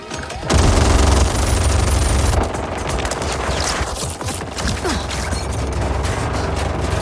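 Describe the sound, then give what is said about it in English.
Machine-gun fire in a fighting video game: a dense, loud, continuous rattle that starts abruptly after a brief quiet moment, with a booming low rumble beneath, and carries on to the end. “Damien El Mascada, Kano with a machine gun. Oh! Goes about 500 cycles a second.”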